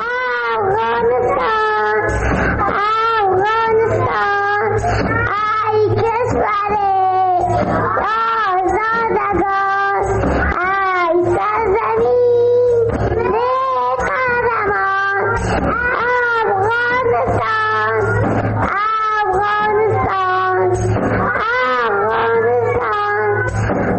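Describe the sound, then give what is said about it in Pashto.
Kindergarten children sing a song together, their bright high voices rising and falling in a continuous, evenly loud chorus with a low steady hum beneath. “ترانه یې ویله ما دا ترې ثبت کړې ده اردوونکو ته هم رسو”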